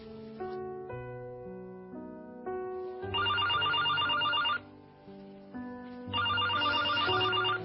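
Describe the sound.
A home telephone rings in two bursts of bright, trilling bell tones, each lasting over a second, with soft melodic background music playing before and between the rings.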